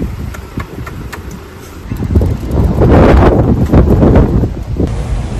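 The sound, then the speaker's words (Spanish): Strong wind blowing outdoors and buffeting the microphone. Loud, low rumbling gusts build after the first couple of seconds and stay heavy to the end. “Así el viento aquí.”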